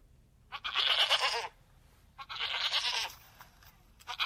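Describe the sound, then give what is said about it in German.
A goat at a zoo bleats twice. Each is a long, wavering, rather faint cry of about a second, with a pause between them, and another cry begins just at the end. “das ist ganz klar von einer Ziege”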